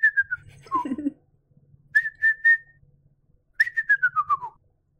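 A person whistles an imitation of a bald eagle call: high, thin, staccato notes in short bursts separated by pauses, ending in a longer run of chirps that steps down in pitch, over a faint low hum.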